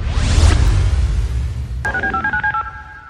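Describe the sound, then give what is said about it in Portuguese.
Sci-fi time machine powering on: a loud rushing whoosh with low rumble opens, then fades to a hiss. A click follows, then a rapid run of warbling two-tone electronic beeps pulses steadily to the end. “eu vou ligar a nossa máquina do tempo para saber exatamente em que local do tempo e espaço nós estamos”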